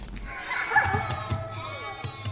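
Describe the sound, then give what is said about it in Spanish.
Frightened sheep bleat in a stable as a wolf slips inside: shaky, wavering cries from the flock overlap in a restless, agitated cluster, with some low thumps beneath. “En casa de César, un lobo sube al tejado y se cuela en el establo. Otros le siguen y las ovejas se agitan aterradas.”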